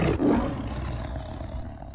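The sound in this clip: A lion lets out one deep, loud roar that swells quickly, then holds and slowly fades across the two seconds.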